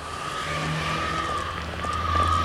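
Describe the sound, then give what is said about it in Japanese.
A car engine gives a steady, loud droning hum that holds throughout and swells slightly toward the end. “ここから車の音を引きます。”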